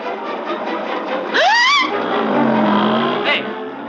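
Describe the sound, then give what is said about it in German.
A 1950s Vespa scooter's two-stroke engine revs in one quick burst, its buzzing pitch sweeping sharply upward before settling into a lower, steadier hum over constant background noise. “Unverkennbar der Sound der 50er Jahre. Ein Zweitakter, der sofort Erinnerungen weckt.”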